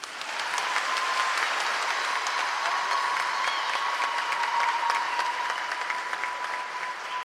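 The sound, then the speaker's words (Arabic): A weak, sleepy round of audience clapping, even and unbroken, holds at one steady level for several seconds before cutting off abruptly at the very end. “بس التسقيفة اللي انتوا عملتوها دي تسقيفة نايمة قوي.”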